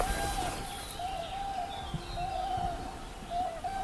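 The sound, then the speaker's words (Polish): Common cranes call in a wetland, giving several drawn-out, wavering trumpeting notes at a fairly even pitch. The calls stay faint over a steady wash of background noise. “To dobre miejsce na to, żeby nagrywać żurawie. O, słyszymy żurawie.”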